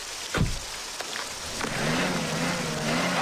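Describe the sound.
Car engine revving while the vehicle is stuck and slipping in spring mountain meltwater: a faint, low drone that builds and holds after a few thuds, with a steady wash of splashy noise throughout.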